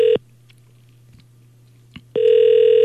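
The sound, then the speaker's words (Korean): A telephone ringback tone on an outgoing call: one ring ends right at the start, then about two seconds of near silence, then the next steady buzzing ring begins and runs to the end. “아 다른 데 잠깐 가셨을까? 전화 다시 한번 네, 해볼게요.”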